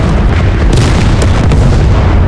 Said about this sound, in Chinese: 不好，矿洞炸了！